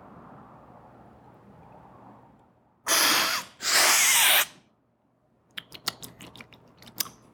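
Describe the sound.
Loud slurping of coffee at a coffee cupping tasting: two forceful, airy slurps in quick succession, followed after a pause by a scatter of light clicking and clinking taps.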